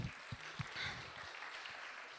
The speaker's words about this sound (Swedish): Ja, ge dem en stor applåd.